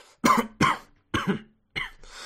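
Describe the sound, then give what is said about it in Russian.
A woman coughs four times in short, dry, harsh bursts, with pauses between them. No talk is heard. “Она кашлянула.”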